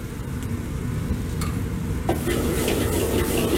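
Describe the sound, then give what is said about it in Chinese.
Chopped aromatics are dropped into a wok of hot lard and sizzle. A steady, hissing fry runs throughout and grows noticeably brighter and louder partway through, when the sizzle intensifies. “油温6成热之后，加入切好的料头下锅爆香。料头爆香之后开始调味”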